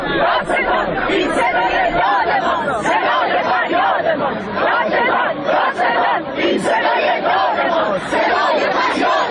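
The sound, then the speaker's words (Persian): Crowds in Isfahan chant protest slogans about an acid attack case, demanding action from the prosecutor. The loud, massed chanting runs continuously and rhythmically, with many voices blending into a thick roar. “بله، صدای شعار مردم اصفهان رو شنیدید در مورد پرونده اسید پاشی”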